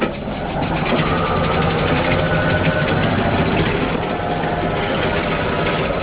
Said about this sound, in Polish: Taki parowóz teraz, co przyjechał, ma 144 tony i tu na tą obrotnicę z 1908 roku wjeżdża i można obracać.